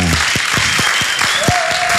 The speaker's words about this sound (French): Mais quand même, on l'applaudit deux fois.